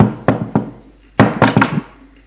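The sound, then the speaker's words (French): Knuckles rap on a door in two bursts, a quick few knocks, a short pause, then several more firm, hollow knocks in a row, fairly loud with nothing else around them. “Il frappe à la porte.”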